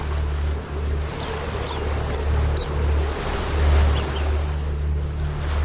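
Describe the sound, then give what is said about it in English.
Sea waves swell and crash against rock in open water, a steady rushing surf with a deep low rumble that rises and falls gently as the swell builds. No voices. “and a wave crashes against a rock. The chicks are being tossed around on the swell. The waves are building, and they're bobbing around like corks.”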